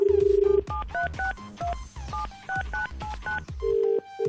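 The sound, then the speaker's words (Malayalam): Touch-tone telephone dialing as a radio host calls a singer: a steady tone, then a quick run of many short, clear keypad beeps, ending in another steady tone. Everything is heard alone, without talk. “ആ ഒരാളെ നമുക്കൊന്ന് വിളിച്ചു നോക്കാം.”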